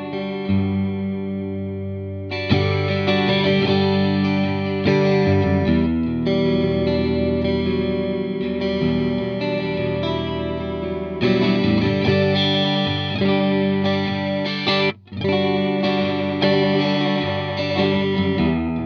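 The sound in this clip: Electric guitar played through a Fender effects pedal at its fast rate setting, sustained chords shimmering with quick chorus-like modulation, steady and full, with one brief dip in level near the end.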